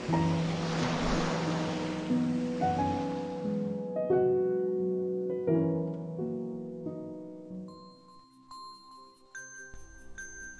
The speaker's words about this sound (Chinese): 你们听听啊，能听到大海的声音呢